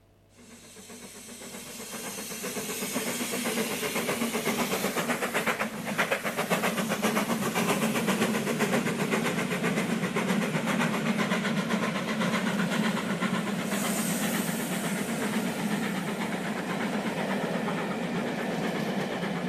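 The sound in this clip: A moving train carriage rumbles and clatters, its loud, steady noise building over the first couple of seconds and then holding with a fine, rapid clicking running through it.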